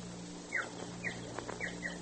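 A small bird chirps four times in short, high, thin notes, the last two close together, all faint over a steady low hum and background hiss.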